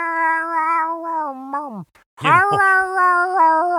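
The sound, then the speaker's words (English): A person imitating an old cat yowling on a fence: two long, wavering, nasal yowls separated by a brief silence, the first sagging in pitch at its end and the second rising sharply before holding steady. “He says there's an old cat walking up and down the fence yowling. It would just go,”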